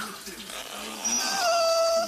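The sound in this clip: An auto-tuned dog whimpers, its whine turning into high, steady, pitch-corrected tones that hold through the second half, above a quieter murmur.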